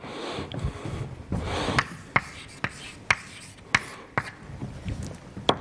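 A lecturer writes an equation on a board, producing a steady run of sharp taps and scratchy strokes at an irregular rhythm, with low, muffled sounds in between.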